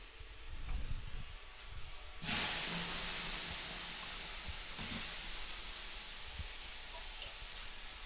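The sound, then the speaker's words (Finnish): Water is thrown onto hot sauna stones, and a sudden loud hiss of steam bursts out and holds as a steady sizzling rush. A second, smaller surge of hissing follows partway through. “Hetäänpä lisää löylyä. Heitetään löylyä.”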